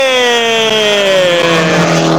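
Rally car engine on special stage number three, a loud sustained drone with a strong harmonic whine whose pitch gradually drops.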